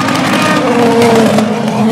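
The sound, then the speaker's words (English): Race cars at the Le Mans motor race make a loud, continuous engine roar with a steady, droning pitch throughout. “I find the sound of the cars genuinely soothing, comforting even. As long as there's motor racing,”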